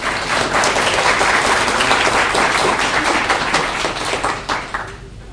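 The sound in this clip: A church audience applauds to welcome guest speakers: dense, steady clapping that holds for several seconds and then thins out and fades at the end.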